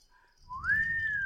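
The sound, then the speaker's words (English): A toy whistle is blown once: a single clear note sweeps upward and then holds steady, with a soft low rumble underneath. “First whistle of the episode?”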